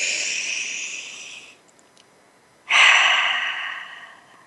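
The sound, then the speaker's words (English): A deep breath is taken during a guided relaxation exercise: a long, airy inhale, a short silent pause, then a longer, louder exhale that slowly fades. No one speaks. “Go ahead and put one hand on your heart, one hand on your head, and take a deep breath.”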